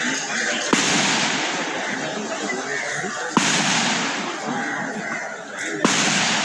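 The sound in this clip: Gunshots fired inside a prison during unrest ring out as three sharp, isolated cracks spaced a few seconds apart, each cutting briefly above a dense, continuous wash of noise.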